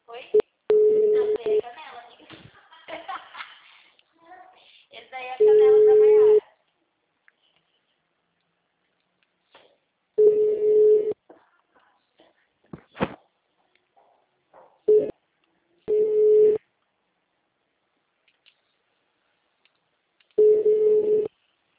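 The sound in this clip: A telephone line tone sounds on an unanswered call: a steady, mid-pitched beep repeats in several separate pulses with silent gaps between them, and brief talk and crackle are heard in some of the pauses.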